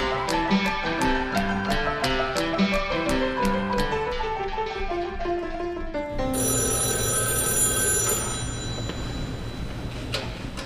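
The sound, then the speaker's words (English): A telephone rings with an incoming call near midnight, a call to a state corrections department spokesman on the night of an execution. A rapid, rhythmic run of bright ringing strikes gives way to a steadier, sustained ring. “That sound you just heard is the call that Department of Corrections spokesman Solomon Graves received at around 11:56 p.m. on the night of the execution of Liddell Lee”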